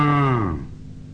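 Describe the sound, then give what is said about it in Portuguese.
An ox lets out a single drawn-out moo, a rich harmonic bellow that holds steady, sags lower toward its end and then fades away, heard alone with no talk. “O boizinho veio e mugiu, mugiu.”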